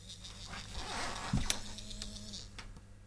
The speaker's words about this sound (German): Die Vibrationsintensität nimmt stark zu, wenn man sich dem Hindernis nähert, bis auf etwa 30 cm.